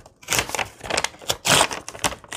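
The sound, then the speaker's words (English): A sheet of paper torn by hand to a set width for a single envelope: rough, crackling rips in uneven bursts, fairly loud, with pauses between pulls and a fresh rip starting at the end. “tear that off. So that's the width we know we want to be.”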